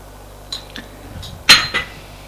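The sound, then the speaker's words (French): A spoon stirring in a cup of creamy liquid gives a few light metallic clinks against the side, followed by a sharper, louder clink and one more. “En tournant avec sa cuillère, Alexis voit de la crème qui s'accroche à la cuillère comme de la larve blanche.”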